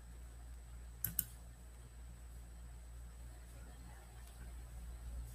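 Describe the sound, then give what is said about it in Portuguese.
Two sharp, brief clicks of a computer mouse come in quick succession, faint above a steady low hum. No other sound events stand out. “Estou clicando, não está abrindo.”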